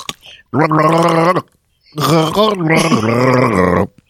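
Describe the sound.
A voice imitates gargling as a gargling gargoyle character, making two long bubbling, wobbling vocal bursts separated by a short pause, rough and throaty in tone.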